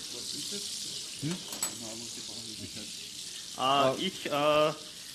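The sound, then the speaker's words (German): Apple slices for pancakes frying in a pan make a steady, soft sizzling hiss throughout, with a few light clinks and brief louder sounds near the end. “ich brate jetzt die Apfelspalten an, also die Äpfel, die wir da in den Pfannkuchenteig gegeben haben.”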